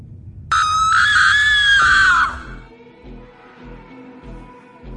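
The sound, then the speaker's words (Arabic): A cat lets out a terrifying scream: one loud, shrill, wavering wail lasting about two seconds. It cuts off into quiet, low, regularly pulsing sound. “القط طلع منه صوت زي صوت صرخة مرعبة”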